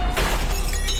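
A second car side mirror smashing against an underground parking pillar gives a brief, bright shattering crack with a scatter of crunching, breaking fragments over a low rumbling background.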